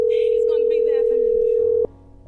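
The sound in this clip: A telephone dial tone sounds while a cell phone is being called. The flat, single-pitched hum holds steady for nearly two seconds under a talking voice, then cuts off abruptly.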